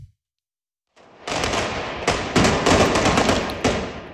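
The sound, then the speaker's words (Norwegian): Bolivian police fire tear gas at fleeing demonstrators in La Paz: several sharp thuds and bangs punch through a dense, continuous roar of noise after a brief silent start. “Her hører vi boliviansk politi som skyter tåregass mot demonstranter som legger på sprang i hovedstaden La Paz.”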